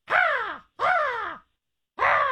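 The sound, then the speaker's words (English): A voice imitates a crow cawing: three hoarse, harsh caws, each sliding downward in pitch, with short gaps between them and the last one cut off. “I just do a crow. I don't do vultures.”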